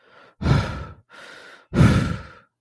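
Heavy breathing of a tired, cut and bleeding man: two breath cycles, each a softer, airy inhale followed by a louder, rasping exhale, with no talk.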